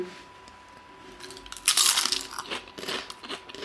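Biting into a green, seaweed-like snack: one loud, crisp crunch breaks in after a quiet stretch, followed by several softer crunching chews over a faint steady hum.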